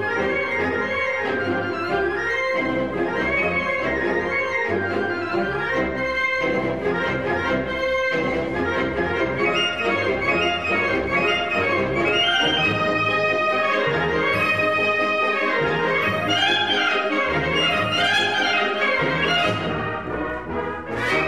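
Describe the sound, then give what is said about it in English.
A professional wind ensemble plays in concert, with brass and woodwinds sounding full, sustained, swelling chords and moving melodic lines. The music stays loud and continuous throughout, with no talking. “That's the sound of the San Francisco Wind Ensemble, one of the very few professional-level wind ensembles on the West Coast, being led by Dr. Martin Segalcla from their concert a year ago.”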